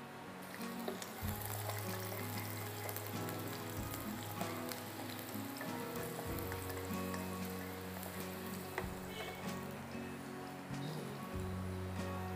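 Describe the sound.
Garlic frying in hot oil in a wok, a faint, steady sizzle with fine crackles and pops running continuously.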